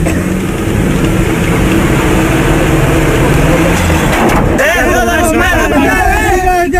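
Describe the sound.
Car engine revving loudly as a learner driver shifts gear, lets the clutch out slowly and presses the accelerator, a dense continuous roar that later gives way to voices talking.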